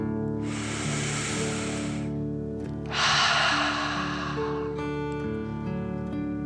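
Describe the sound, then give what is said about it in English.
A slow, deep breath drawn in through the nose and then let out through the mouth during a relaxation exercise: two long, soft hissing breaths separated by a short pause, over gentle, sustained background music tones. “Take another slow, deep breath in through your nose and out your mouth.”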